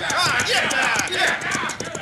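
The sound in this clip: Galloping horse hoofbeats as Cisco rides fast toward the listener: a quick, repeated clip-clop rhythm runs throughout under a voice and faint music.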